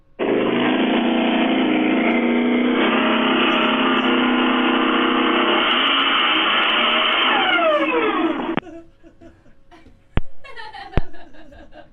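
A Volkswagen Beetle engine drones loud and steady for about eight seconds before cutting off abruptly, leaving quieter scattered noises and a few sharp clicks.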